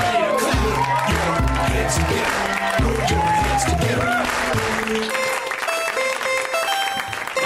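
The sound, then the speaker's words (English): Loud, steady audience applause and cheering at a UCB comedy show, continuing throughout with music playing underneath. “Put your hands together. Put your hands together. Put your hands together.”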